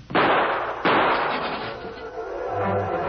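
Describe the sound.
Gunshots from a radio drama shootout: two sharp, loud blasts fire in quick succession, each followed by a lingering, decaying rumble before things settle into quieter noise.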